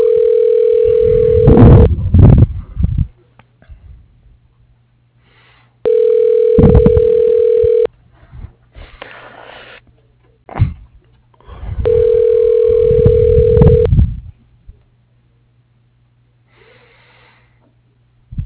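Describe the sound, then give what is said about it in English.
Telephone line tone plays while a call is transferred to a ShoreTel voicemail system: three long, steady, mid-pitched tones of about two seconds each, separated by pauses and rough, noisy line sounds. “To cancel, please hold while I transfer your call.”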